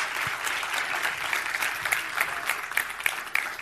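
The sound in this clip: An audience applauds to welcome a pastor from Johannesburg, South Africa, with full, continuous clapping that holds steady for a few seconds.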